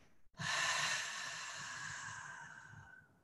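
A long, steady exhale through the mouth during a guided relaxation breathing exercise. The breath is a soft, airy whoosh that lasts nearly three seconds, stays quiet throughout and tapers off at the end.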